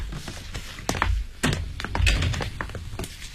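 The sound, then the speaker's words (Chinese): A key unlocks a thick hotel suite door and the door opens, producing a few faint metallic clicks and dull thunks spread unevenly over several seconds. “用钥匙打开一扇厚实的门”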